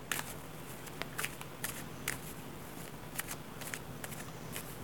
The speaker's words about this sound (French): Je rebrasse les cartes.